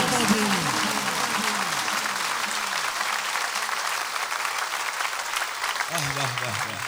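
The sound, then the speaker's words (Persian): A crowd claps along with a devotional religious chant, dense continuous clapping throughout, while a voice sings over it at the start and again near the end. “دست بزن بدونم آماده ای”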